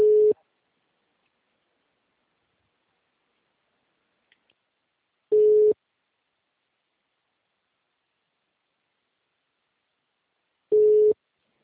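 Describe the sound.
A telephone busy tone after a dropped call: three short, identical mid-pitched beeps spaced about five seconds apart, with near silence between them.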